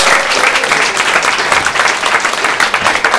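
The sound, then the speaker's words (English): A live audience gives a loud, dense round of applause to welcome a volunteer onto the stage, the clapping steady and unbroken throughout. “Give Emma a big round of applause.”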